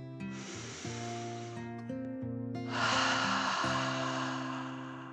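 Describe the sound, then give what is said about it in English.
Deep, forceful "dragon breath" exhales from a breathing exercise: two long, breathy hissing rushes of air, the second louder and fuller, sounding over steady background music with sustained stepped tones. “Max took another dragon breath.”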